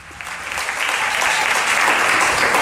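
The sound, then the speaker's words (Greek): Audience applause, a dense clatter of many hands clapping that swells slightly and then holds steady and loud throughout. “Με αποθεώνει το κοινό, όπως ακούτε. Αλλά δικό μου, ο Αρκάς. Τα χειροκροτήματα στον Αρκά”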